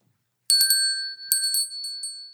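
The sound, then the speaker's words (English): A bright, high bell rings in two quick bursts of several dings each, with a ringing tone that lingers between strikes and no voices. “Why don't we ring a bell? See, ring a bell”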